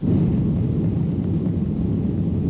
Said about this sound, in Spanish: Y hoy nos hemos subido de nuevo a un avión de Iberia.